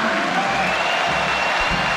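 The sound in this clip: Crowd applause and cheering in a football stadium as players are announced. The sound is a steady, dense roar of many hands and voices that stays at an even level throughout, with no break.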